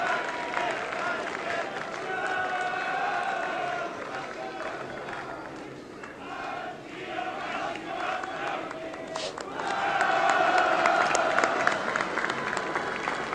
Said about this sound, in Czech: Slyšíte, jak vrcholí prvomájová manifestace na Letenské pláni.